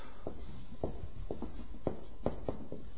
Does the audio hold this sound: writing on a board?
yes